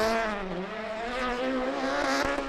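A rally car's engine roars steadily as it is driven around Glasgow, its harmonics dipping briefly then climbing again as the revs change.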